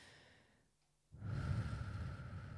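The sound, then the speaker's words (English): A deep inhaled breath during a guided relaxation meditation. After a near-silent pause, a breathy rush of air begins and holds steady until the end. “Take a deep breath in”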